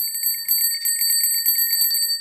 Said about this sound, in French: Ils n'ont pas de lumière, certes, mais ils ont une sonnette.